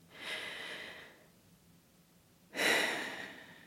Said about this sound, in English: So if you feel like it, maybe take a couple of breaths with me, like nice full breaths if it's possible.